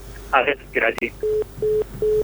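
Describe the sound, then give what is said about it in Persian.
A phone call being cut off: a voice speaks briefly, then a sharp click, then three evenly spaced low beeps of a disconnected line, each steady and equally loud. “تماس شون قد شد.”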